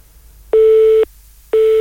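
A telephone busy tone follows a caller hanging up: loud, steady mid-pitched beeps, each lasting about half a second with equal silent gaps, two beeps heard alone.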